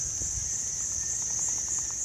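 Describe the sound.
Insects chirping in a Thai jungle form a steady, high-pitched buzzing drone that holds unbroken throughout, with a faint low rumble beneath and no talk.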